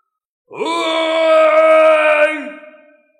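A man's single prolonged anguished scream, sliding up at the start, then holding a strained, steady pitch for about two seconds before dropping away. It is loud and heard alone.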